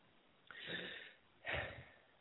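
A deep breath taken just before a timed challenge comes as two soft, breathy rushes of air, the first longer and the second shorter and stronger, with no talk.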